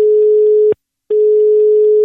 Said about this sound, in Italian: Andiamo al telefono